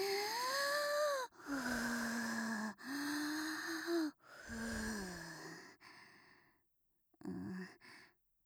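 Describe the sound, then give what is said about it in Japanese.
Deep breathing to calm down: several long, drawn-out breaths with a voiced, sighing, humming tone, then a short final breath after a brief pause. “ちょっと落ち着きましょう。深呼吸。”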